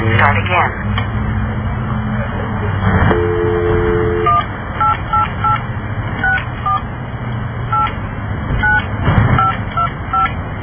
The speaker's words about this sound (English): Okay, we're going to do that one more time. We're going to dial this one more time.